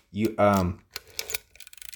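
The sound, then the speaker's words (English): Mechanical clicking of a Pentax Spotmatic film camera's self-timer being activated: a short voice, then a quick run of light, dry ticks and clicks of the mechanism. “So on the front, you have a timer. I'm going to activate the timer.”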